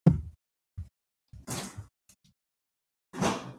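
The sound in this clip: A can of Pepsi being cracked open: a few short, soft clicks and two bursts of bright hissing, separated by silence.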